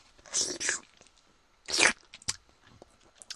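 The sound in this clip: Crunchy food bitten and chewed, with a few loud crisp crunches separated by quieter, softer chewing noises.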